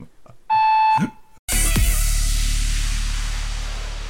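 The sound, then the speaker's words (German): A single steady, mid-pitched electronic beep from a telephone answering machine, lasting about half a second, followed by a loud, noisy burst that slowly fades away. “leider nur der Anrufsbeantworter. Ach so. Hinterlasst gerne eine Nachricht und ich rufe zurück.”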